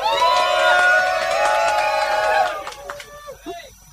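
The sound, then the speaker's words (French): A live audience at a radio show in the Tête de Chou Café cheers and whoops loudly for about two and a half seconds, then thins out into scattered voices and chatter. “surtout on est en public, donc j'espère qu'on va l'entendre le public ce soir”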